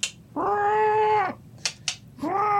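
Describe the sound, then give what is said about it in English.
Electronic cat meows from a Polaroid camera: a long, clear, tonal meow, then two sharp clicks, then a second meow starting at the end. “There's a cat in there. Yeah, it's a cat.”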